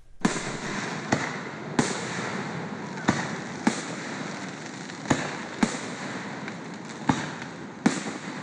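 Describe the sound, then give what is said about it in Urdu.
Fireworks explode over a lake in a park in Virginia near Washington at a Fourth of July celebration. About nine sharp bangs come at fairly regular intervals, each followed by a fading crackle and rumble. “یہ آتش بازی امریکی دارالحکومت Washington کے قریب Virginia کے ایک خوبصورت لیک فیئرفیکس پارک میں کی جا رہی ہے۔”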